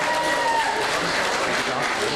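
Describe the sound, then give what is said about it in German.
Crowd applause greets FC Bayern München Amateure representatives, led by Hermann Gerland, at a fan club gathering: sustained clapping from many hands with voices mixed in, holding at an even level throughout. “Und nun begrüßen wir ganz herzlich in unserer Mitte, ich hatte die Fans schon gebeten, sich vielleicht wieder zu platzieren, mit einem besonderen Applaus die Vertreter des FC Bayern München Amateure mit Hermann Gerland an der Spitze.”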